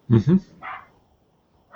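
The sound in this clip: A human voice imitates a dog barking at birds in the yard. Two quick, gruff barks come close together, then a softer bark, and another begins after a brief silence.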